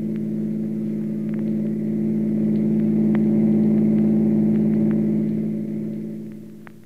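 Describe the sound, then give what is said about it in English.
A car engine drones steadily as the car pulls away after the driver steps on the gas, its low, even hum swelling a little toward the middle before fading at the end. “He thought of her eyes, her lips. And then he stepped on the gas and headed for the Rushville Center House.”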